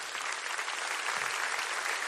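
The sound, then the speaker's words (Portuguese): A church audience at a Portuguese-language service applauds in a dense, even roar of clapping that holds steady throughout at moderate loudness. “Quem quer fazer parte dessa visão, aplauda o Senhor em nome de Jesus.”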